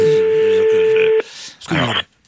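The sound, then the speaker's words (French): A steady telephone dial tone for an outgoing call holds for about a second with a voice talking beneath it, then cuts off. A short noisy burst of sound follows. “Nous appelons maintenant, nous allons voir si une heureuse, un heureux est en ligne.”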